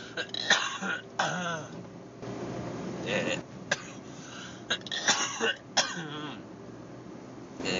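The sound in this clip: Several dry, harsh coughs and throat clearings from a person whose cough persists during illness, coming in irregular bursts with quiet gaps between them.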